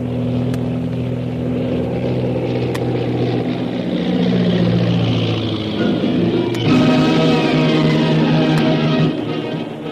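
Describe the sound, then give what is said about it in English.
A powerful seaplane's propeller engine drones through a landing on water, a steady harmonic hum that shifts in tone and swells slightly louder toward the end, with a few faint clicks. “As the powerful seaplane bearing Shanghai Lil and her captors, Karnak the Killer and Koa, made a safe landing”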